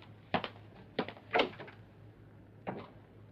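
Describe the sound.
A door on a ship's cabin being locked: a few sharp clicks and clunks, the loudest in a tight cluster, separated by short pauses, with a quiet steady hum underneath.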